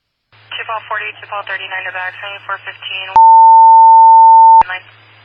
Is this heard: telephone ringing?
yes

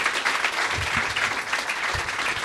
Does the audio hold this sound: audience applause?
yes

